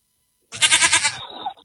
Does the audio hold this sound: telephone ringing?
no